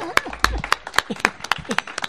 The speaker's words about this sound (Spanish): Un aplauso para Hilario.